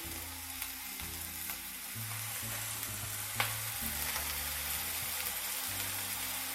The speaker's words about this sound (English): Just kind of let them sear for about a minute, maybe two.